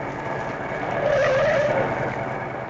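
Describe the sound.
A car turns left around a corner: a steady rush of engine and road noise swells slightly, with a brief high tire squeal in the middle before it settles.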